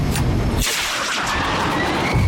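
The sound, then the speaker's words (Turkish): A dropped bomb explodes with a loud, broad rumbling blast from the outset, settling into a sustained, noisy roar that lingers to the end. “Vakit yok. Bombayı bırakıyorum.”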